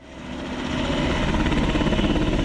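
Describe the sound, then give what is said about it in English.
An Alaska National Guard military helicopter departs from Bethel. A dense, rumbling roar of rotor and engine with a steady thrumming pulse builds in loudness and then holds strong. “An Alaska National Guard helicopter is leaving Bethel to transport military personnel and government officials to the new village site.”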